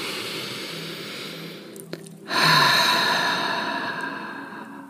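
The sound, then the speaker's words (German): A deep breath drawn in and then let out through the mouth during a guided relaxation exercise: a soft, airy inhale followed by a louder, breathy exhale that fades gradually, with no talking. “atme einmal tief ein und über den Mund wieder aus.”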